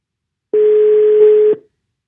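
A telephone tone while a call is redialed after the line dropped: one loud, steady, mid-pitched tone lasting about a second, starting abruptly after silence and cutting off cleanly, with no voices.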